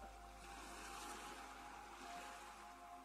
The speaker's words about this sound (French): Tu entends les bruits autour de toi? On dirait bien le bruit de la mer.